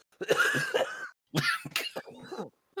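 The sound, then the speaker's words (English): A person who is unwell coughs in a few harsh, rasping bursts, the first one long and drawn out, then a shorter fit and a brief final cough, loud and with no other sound around them. “The cough was not scripted.”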